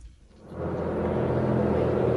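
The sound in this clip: A bus passing as a sound effect on the street outside a pub door: a low, broad rumble swells in from near silence after about half a second and then holds steady and loud to the end.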